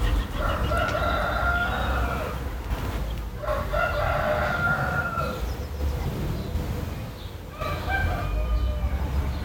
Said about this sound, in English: one of my mum's neighbours has got a cockerel. And this thing was I don't know, what do they do? What noise do they make? Anyway, it was doing what it does really late into the afternoon